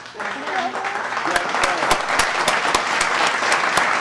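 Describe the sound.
Audience applause at a comedy show, a steady patter of many hands with sharper individual claps standing out, while voices talk over it.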